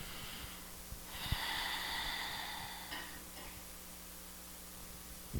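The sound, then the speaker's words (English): A slow, deep, airy inhalation lasts about two seconds, followed by a short release of breath, taken as a pause during a spoken affirmation at a church service. The breathing is soft and stands alone without talk. “I'm going to take a deep breath with me, please.”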